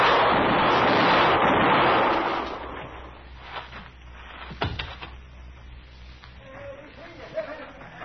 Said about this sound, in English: You got him, Mr. Dillon. You got him. Yeah. You hit him all three shots. I could see every one of them.